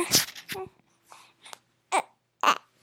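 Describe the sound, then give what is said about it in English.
A hungry newborn baby fusses in a few short, whimpering cries and squeaks, separated by brief pauses of quiet. “It's okay. We have a fussy baby who's hungry.”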